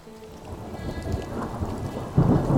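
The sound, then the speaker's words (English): Thunderstorm sound effect for the Thunderbird approaching: steady rain hiss under rolling thunder, building to a louder, deeper boom near the end. “Oh, sounds like the Thunderbird is back and heading their way”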